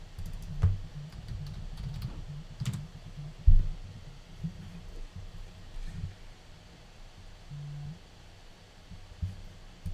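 Typing on a computer keyboard: a few scattered key clicks and taps, quiet and irregular, over a low steady background rumble.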